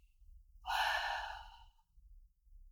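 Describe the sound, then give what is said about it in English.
A single long, noisy exhale pushed through the back of the throat during a breath-work exercise. The breathy rush swells quickly, then fades over about a second, with no talking. “As you exhale, kind of push the air to the back of your throat, so you're going to make some noise.”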